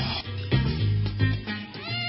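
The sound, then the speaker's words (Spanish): A cat meowing in drawn-out, wavering cries over a continuous background sound. “¡Oye, gatito!”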